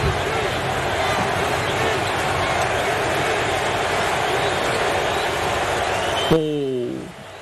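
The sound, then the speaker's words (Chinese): Basketball arena crowd at a Spurs home game chanting MVP as Brunson steps to the free-throw line, a loud sustained roar that fades at the end as a voice speaks briefly. “布伦森上罚球线，你能听到很大的声量在喊 MVP。”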